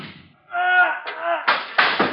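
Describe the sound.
Staged gunshots crack out in a detective drama as someone is spotted on a fire escape. A voice is heard first, then a few sharp, abrupt bursts fire in quick succession.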